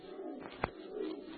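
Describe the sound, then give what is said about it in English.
A screech owl calls with a faint, low, quavering hoot that rises and fades over about a second and a half. “Yes, that was just an old screech owl. There it is again.”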